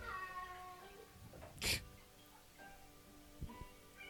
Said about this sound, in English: Cats everywhere. Oh, that's a tubby, short-legged kitty.